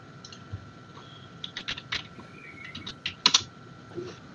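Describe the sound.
Typing on a computer keyboard: a few irregular light clicking keystrokes, quiet and alone, with one short cluster of faster taps near the end.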